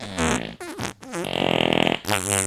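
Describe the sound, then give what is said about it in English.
A voice imitates fart noises, producing several buzzy, raspy blasts that wobble in pitch, including one long sputtering stretch with rapid pulsing, each blown loud and alone. “God, I'm so good at doing fart noises.”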